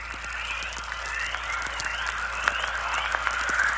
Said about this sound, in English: Particles from the sun are hitting Earth's magnetic field and generating these noises, probably several thousand miles out in space.